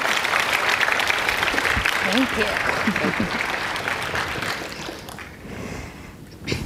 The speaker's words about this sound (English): Put your hands together and welcome Sophie Karasek.